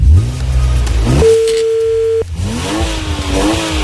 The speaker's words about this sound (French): je démarre la caisse là moi personnellement.